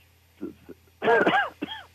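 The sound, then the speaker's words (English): Coughing and throat clearing. Two small, soft bursts come first, then a loud, longer rasping clear of the throat and one final short cough, with no talk over them. “sorry, I've got some cough here”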